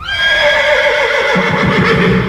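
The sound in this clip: A pony neighing: one long, loud whinny with a bright, tremulous, wavering tone, heard on its own without voices.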